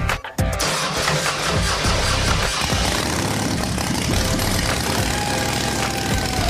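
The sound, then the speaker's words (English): A natural gas powered motorcycle engine starts with a brief sputtering burst, then settles into a loud, steady, rough roar that continues to the end without talk. “when we fired it up for the first time, it sounded amazing.”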